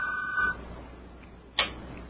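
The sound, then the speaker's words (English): A telephone rings with an incoming call on a phone-in line: one short, faint electronic ring tone at the start, then quiet broken by a single sharp click. “We appear to have a call”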